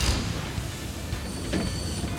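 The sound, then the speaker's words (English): Train wheels squeal as the brakes are pulled on a moving train, a thin high-pitched squeal riding over a steady, loud rumble throughout. “You're right. Let me pull the brakes.”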